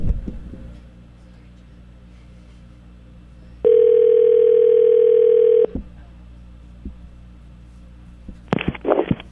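A steady telephone tone, heard while a call is being placed, sounds once for about two seconds as a flat, buzzy hum over low background noise. A short burst of noise follows near the end.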